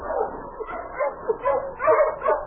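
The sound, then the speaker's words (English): A dog whimpers deep in its throat, a run of low, nasal whines rising and falling in several short pulses. “King only whimpered deep in his throat.”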